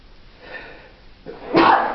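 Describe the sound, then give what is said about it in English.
A single loud sneeze bursts out near the end, after a brief, soft intake of breath. “Bless you.”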